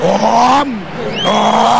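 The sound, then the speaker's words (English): A diesel engine is cranked up, giving a loud droning tone that climbs slightly, dips away briefly, then returns at a higher pitch. “crank up that diesel.”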